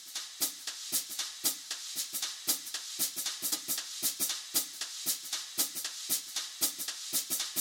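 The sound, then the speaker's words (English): A closed hi-hat taps along with a brushed drum loop in a swing jazz groove, a steady run of crisp, bright ticks in an even, bouncing rhythm with soft brush swishes underneath. “There's just a closed hi-hat tapping along, so give that a listen.”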